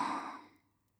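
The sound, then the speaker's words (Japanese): A single soft breath let out, an airy sigh-like exhale that fades away within about half a second and leaves near silence. “吸って、吐いて、”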